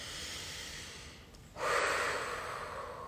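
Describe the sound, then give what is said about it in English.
A deep breath in and out during a guided breathing exercise: two long, faint, airy breath sounds, the second louder and fuller, with no talk. “Wherever you are, take a deep breath in and out to reset.”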